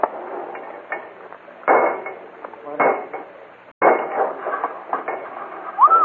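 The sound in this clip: Heavy metallic clanks and clattering bangs as robbers crack open safe deposit boxes, a few sharp knocks and rattles in uneven bursts with short pauses between, ending in a brief whistling tone.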